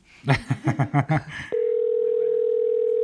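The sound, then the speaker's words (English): Telephone dial tone heard while placing a call: after a brief burst of voice, a steady, unbroken low-pitched hum sounds alone for the remaining second and a half. “So we're going to call Kelly first.”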